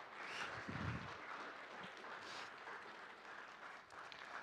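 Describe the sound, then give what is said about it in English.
Applause from a church audience welcoming new members: a steady, fairly soft wash of many hands clapping that lasts throughout. “It gives me great pleasure on behalf of the church to welcome these before you into membership. You can give them a hand.”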